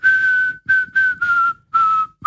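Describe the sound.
A person whistles a short melody: six clear, loud notes at one steady pitch. The first note is held long and the rest are shorter, each sliding slightly downward, with short silent gaps between them.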